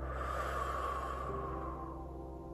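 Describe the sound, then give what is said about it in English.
Slow breathing during a guided breathing exercise: one long, steady rush of breath that stays loud and even throughout, with a slight tonal hum beneath it and no talking. “Breathe out. Breathe in with me. Breathe out.”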